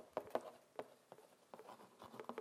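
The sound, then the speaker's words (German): A pen scratches as someone writes on a cardboard box, making faint, irregular scratchy strokes and light taps in short bursts with brief pauses between them. “nimmt einen Karton und schreibt drauf: Fragen zu Weihnachten.”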